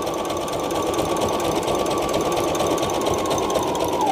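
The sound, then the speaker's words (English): A sewing machine stitches fabric in a steady, fast mechanical whir with a rapid needle rhythm. The sound runs loud and unbroken for about four seconds, with no talk over it. “And we're sewing. Okay, it's gotta get going. Hold on to the other side, get it going.”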